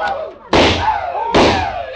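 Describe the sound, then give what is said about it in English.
Two loud gunshots, fired by a drunk old trapper in a frontier town, come about a second apart. Each is a sharp, hard bang followed by a long ringing decay. “You better stop him, Rhett. He's only got two shots left.”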